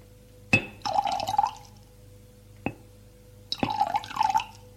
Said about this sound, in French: Prends une carafe d'eau pour remplir le verre.